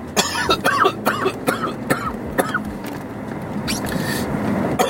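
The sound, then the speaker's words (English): A person coughing repeatedly, with a series of sharp, harsh coughs in irregular succession over a steady background noise, the coughs loud and abrupt. “So, sorry all the coughing on you guys”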